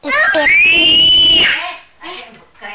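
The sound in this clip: A child screams in one long, loud, high-pitched cry lasting over a second, followed by a few brief, quieter vocal sounds.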